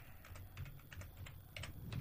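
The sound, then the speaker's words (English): An email address is typed on a computer keyboard. Many quick, faint key clicks come in uneven bursts over a low background hum. “I put my email address in correctly, and now it's perfect.”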